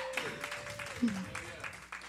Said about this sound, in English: Y'all clap it up for Dev.